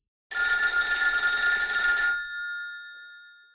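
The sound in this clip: A telephone bell rings once in a loud, bright, trilling burst lasting about two seconds, then its tone lingers alone and fades out.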